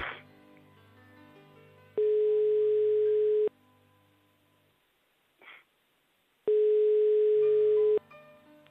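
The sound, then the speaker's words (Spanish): Ringback tone of a telephone as a number is called again: two long, steady, mid-pitched beeps separated by a long quiet pause, over a faint low background. “Mira, estamos llamando otra vez, Alicia.”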